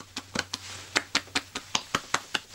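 A man's belly being patted by hand: a steady series of soft, fleshy slaps at an even, fairly quick rhythm, each one short and fairly quiet, with no talk over them.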